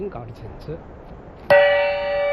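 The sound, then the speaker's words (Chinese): A traditional handmade Wuhan brass gong is struck once after a stretch of talk. The single sharp, loud hit blooms into a bright, shimmering ring that holds steadily to the end. “享誉百年的武汉铜锣，在少年木兰的手中发出振奋士气、鼓舞人心的锣声”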